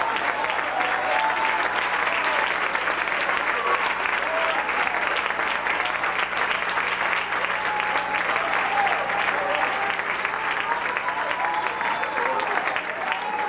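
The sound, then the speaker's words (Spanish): An audience applauds during a church service, a dense, steady wash of many hands clapping at an even, fairly loud level for the whole stretch, with no clear break or rhythm. “alaba. Con un aplauso grande así.”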